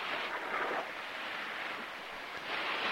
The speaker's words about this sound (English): Leaning against the railing, Burkett looks down at the water and spots a large fish swimming alongside the ship.